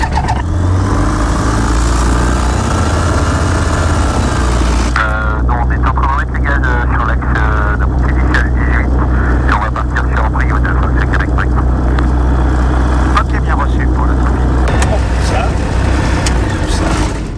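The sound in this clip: A small airplane's engine runs up for a flight lesson with a loud, steady droning roar that shifts in tone about a third of the way through and then holds, while people talk over it.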